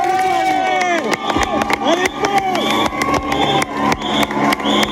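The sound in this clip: A cycling fan cheers at a Tour de France stage passing through Cadillac. Loud, enthusiastic shouts ring out over a crowd, with many sharp claps and bangs scattered irregularly throughout.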